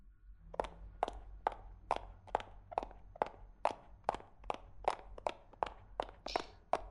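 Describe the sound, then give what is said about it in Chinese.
Brisk footsteps of someone hurrying, about fifteen sharp, evenly spaced steps at a quick steady pace, each a clear hard tap with no voices. “还有5分钟，走快点了。”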